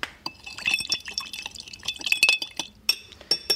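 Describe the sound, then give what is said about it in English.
A spoon stirs a smoky cocktail with bitters in a glass, producing many irregular, bright clinks and small liquid splashes that vary in loudness, with no talk. “Once you've got your bitters in there, give it another little stir.”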